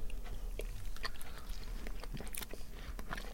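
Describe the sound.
A darker-yellow flavoured snack from a packet being bitten and chewed: a steady stream of dry, crisp crunches and small cracks in quick succession, fairly loud, with no talk over it.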